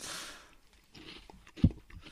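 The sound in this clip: Faint chewing of Calbee snack crisps: soft, scattered crunches with one sharper, louder bite near the end, with no voices.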